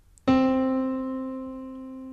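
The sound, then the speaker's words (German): A single mid-pitched piano note is struck once, ringing out with rich overtones and slowly fading as it sustains alone. “Können Sie mal was anspielen auf dem Klavier da? Also der Anfang klingt so.”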